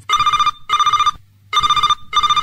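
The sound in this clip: A telephone rings with an incoming call, a loud electronic trill in paired bursts: two pairs, the second cut short, each burst buzzing evenly with short gaps and a longer pause between pairs, heard alone.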